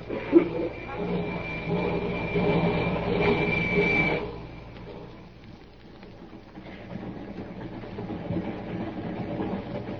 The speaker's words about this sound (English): The train was a few minutes out of Glendale.